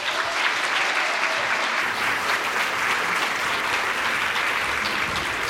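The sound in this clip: Audience applause welcomes two speakers at an evening talk: dense, steady clapping from many hands runs unbroken for the whole stretch, with no voices standing out.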